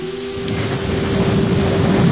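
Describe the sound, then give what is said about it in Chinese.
Heavy midnight rain and rumbling thunder pour in through an open window: a dense, continuous hiss of rainfall over a deep, steady rumble that swells slightly toward the end. “再醒来已是午夜，雨声隆隆，潮湿的水汽携着风从窗外喷涌而入。”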